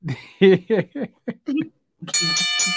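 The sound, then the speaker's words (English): A bell rings once after a stretch of chatter on a wrestling talk show, its bright, sustained ringing tone holding steadily to the end. “Ring the bell. Oh, you wanted to ring the goddamn bell. No, ring it”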